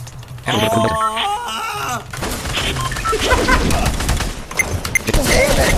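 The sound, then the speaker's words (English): Gunfire in a video game: dense bursts of rapid shots and clattering impacts that run for several seconds after a short tonal sound at the start. “Holy shit, I just got shot in the back, bro.”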